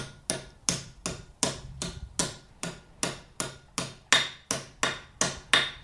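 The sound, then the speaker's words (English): Hammer blows ring out on a copper vessel being shaped by working around its outside, in a steady, even rhythm of many sharp metallic strikes, each followed by a short ringing decay, with no talking. “So when you're hitting it, you're hitting it to move the shape so it sounds.”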